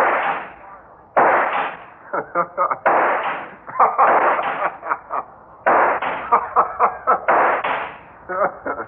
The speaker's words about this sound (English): I hit you with every shot. Everyone.